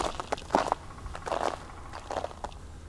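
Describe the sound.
Faint crunchy footsteps on frozen ground come as a few irregular crackling steps, each a short brittle crunch. Quiet gaps separate the steps.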